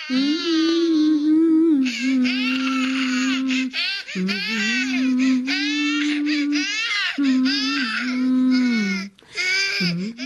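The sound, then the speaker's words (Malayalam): A baby boy cries in loud, sustained wails, several long bursts of high, strained crying broken by brief catches of breath, with no other voices. “മോൻ കരയുന്ന കേൾക്കുന്നില്ലേ?”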